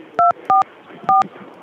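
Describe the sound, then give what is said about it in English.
Telephone keypad tones: three short dual-tone beeps dialing through on a phone line. The first two come close together, and the third follows after a longer pause over faint background noise. “let me just try and dial through.”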